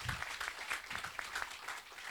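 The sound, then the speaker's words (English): Faint audience applause during an on-stage interview: a soft, continuous crackle of many hands clapping at a steady level. “We can clap for that. We can clap for that.”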